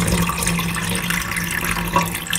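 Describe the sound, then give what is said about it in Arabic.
Water runs from a bathroom faucet in a steady, hissing stream that stays even throughout, with a slight surge near the end. “رجعت تاني في الصالة سمعت صوت الحنفية مرة تانية.”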